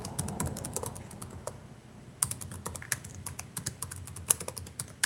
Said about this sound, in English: Typing password one didn't work.